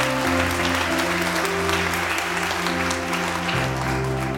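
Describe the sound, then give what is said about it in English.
A church audience applauds to welcome its church family, a steady wash of clapping over sustained music chords that shift near the end. “Come on, will you put your hands together and welcome your church family?”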